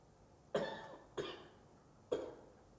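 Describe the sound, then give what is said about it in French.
A person coughs three times at uneven intervals. Each cough is a short, fairly loud burst over quiet background hiss, with no talking. “quelqu'un qui a toussé.”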